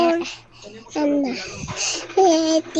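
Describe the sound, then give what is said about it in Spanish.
A baby babbles in a recorded voice message, giving several short bursts of high, sing-song syllables with brief pauses between them. “¡Ay, qué lindo! En su lenguaje de bebé nos dice”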